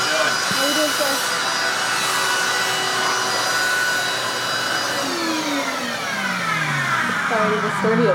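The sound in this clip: A vacuum cleaner sucks up sawdust scattered on the ground of a carport beside lumber on sawhorses, making a steady, even whooshing roar that runs the whole time, with a brief bit of talk near the end.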